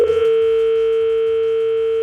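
Telephone dial tone of an outgoing call: a single loud, steady, continuous tone holding unchanged throughout, over a faint low rumble.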